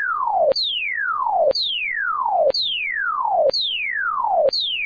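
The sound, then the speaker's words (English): A synthetic tone sonifying a falling line glides steadily downward in pitch, then jumps back high and falls again, repeating at a regular pace of about once a second, loud and alone. “And a falling line gets a falling pitch, like the following.”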